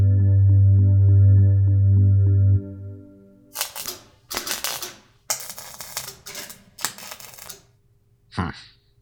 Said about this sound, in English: Socket wrench. Socket wrench.